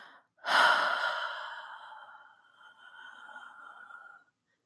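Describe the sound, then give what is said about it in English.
A deep breath during a guided belly-breathing exercise, drawn in through the nose and let out through the mouth: two long, airy phases, the first louder and fading gradually, the second softer and steadier, with no talking. “So we're going to take a deep breath in through our nose, filling our bellies with air, and exhaling through our mouths.”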